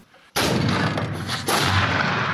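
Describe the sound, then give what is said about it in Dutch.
A Napoleonic-era cannon, cast in Liège, fires a sudden loud bang that carries into a long, dense roar, which swells again partway through and lasts to the end. “We kunnen hele grote knallen maken. Die kanonnen die zijn oorspronkelijk in de Napoleontische tijd gegoten in luik.”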